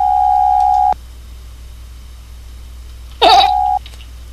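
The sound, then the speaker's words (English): Telephone line tone on an incoming call: a steady, mid-pitched electronic tone holds for about a second. After a pause, a sharp click leads into a second, shorter tone at the same pitch. “Caller ID says Hatch, New Mexico is calling me.”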